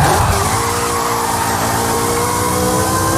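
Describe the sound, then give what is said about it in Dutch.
A Ferrari F355's high-revving V8 engine, loud and continuous, with a dense, strained, harmonically rich howl and no talking. “Dat is een Ferrari. F355.”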